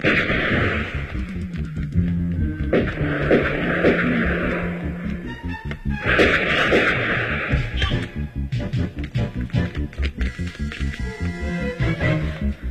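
Gunfire sound effects in a dramatized police chase, with many sharp shots bursting over a dense, continuous backdrop that turns into rapid pulsing bursts toward the end.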